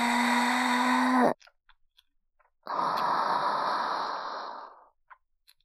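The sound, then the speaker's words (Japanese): Deep breathing during a slow hip-raising exercise: a long voiced breath that cuts off sharply, then after a pause a long, airy breath that gradually fades out, followed by a few faint clicks. “ゆっくり腰に負荷をかけながら行い、同時に深呼吸もしていくんです。こんな風に、腰を上げて、”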